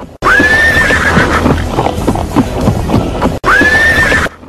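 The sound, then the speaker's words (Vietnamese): A horse neighs at a racecourse, with two loud, high whinnies, one at the start and one at the end, and a busy clatter of hooves and noise in between. “Ngựa hí lên vang vọng cả trường đua”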